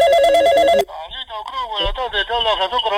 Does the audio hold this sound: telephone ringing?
yes